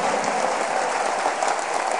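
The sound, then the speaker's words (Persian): An audience claps along at a festive religious celebration, producing a dense, even wash of applause that stays loud and steady from start to finish. “خیلی شل دست میزنیم، حیف نیست دست پایین باشه، بیاری دست تو بالا کف بزن.”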